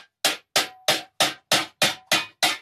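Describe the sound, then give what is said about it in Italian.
Eight evenly spaced hammer blows on heated sheet metal beaten into a concave die to forge a cowbell, each a loud, sharp metallic strike with a brief decay. “I due pezzi identici vengono riscaldati nella forgia e poi battuti in una matrice concava.”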